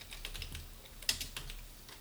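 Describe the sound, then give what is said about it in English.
Keyboard typing as a chat message is entered in a Zoom group chat: a quick, irregular run of soft keystroke clicks, fairly faint, with one sharper tap near the middle and no voices. “And I'm going to type a message here.”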